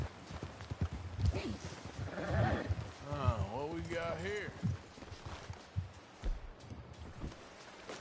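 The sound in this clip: Horse hooves clip-clopping in the video game Red Dead Redemption 2: a steady run of hoof beats under continuous talking, with a few faint animal calls mixed in.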